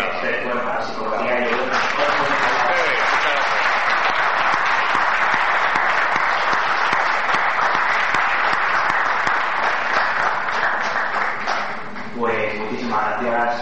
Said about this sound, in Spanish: Bueno, pues quiero pedir, por supuesto, un aplauso a Santiago,